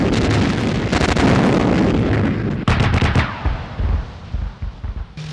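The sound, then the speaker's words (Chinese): Heavy booms from an artillery battery firing four rapid rounds on command. A few loud, sharp blasts come in quick succession, each followed by a rumbling roar that fades between shots. “全连4发急速射， 4发急速射， 放， 放。”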